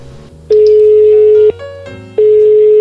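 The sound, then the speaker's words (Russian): Ringback tone of an outgoing phone call: a steady, loud, mid-pitched electronic tone sounds for about a second, breaks off, then returns and holds to the end. “Еще один звонок нашим грузинским коллегам.”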